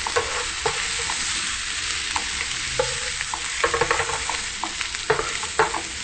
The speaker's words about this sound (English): The same thing with the onions. You just want to get it a nice sauteed look, not too cooked.